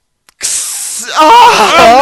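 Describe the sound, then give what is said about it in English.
A torch flame gives a bright, steady hiss for under a second, used to cauterize a chopped-off hand. A voice then cuts in over the hiss. “Unless we cauterize it with this torch.”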